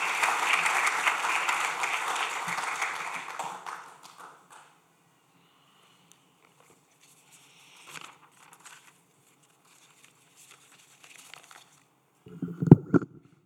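A church audience applauding to welcome a preacher, a dense burst of clapping that fades out after about four seconds, leaving near silence with a few faint knocks and a brief thump near the end.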